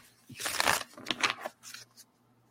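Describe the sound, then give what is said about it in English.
Cards being pulled from a deck, three drawn one after another in a reading, making a few soft papery rustles and slides over a steady low hum. “And so I'm going to pull three cards”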